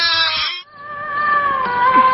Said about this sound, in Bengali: এই যে ছাগলটা আমার কাপড় দেখো কামড়ে খেয়ে ফেলছে।